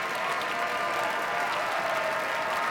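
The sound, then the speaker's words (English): A concert audience applauds a violinist after his own encore arrangement of Schumann's Dreaming from Scenes from Childhood, which followed Mozart's Fifth Violin Concerto. The clapping is dense and even, holding at a moderate level with no voices. “before they couldn't help and applaud at the end of Dreaming from Scenes from Childhood by Robert Schumann, Augustine Hodelink's own arrangement of that piece as an encore”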